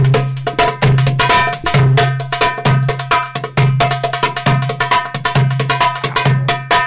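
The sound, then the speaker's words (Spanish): A darbuka, a Middle Eastern goblet drum, plays a loud, driving rhythm. Deep, booming bass strokes recur at a steady pulse beneath dense, crisp, high slaps and rolls, with no voices. “Pero traigo un derbaque o darbuka.”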